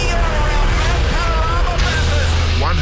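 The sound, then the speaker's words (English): Supercar racing engines roar at Mount Panorama during the Bathurst 1000. A loud, unbroken wall of engine noise carries shifting whining tones that rise and fall throughout. “Listen to the music of supercars.”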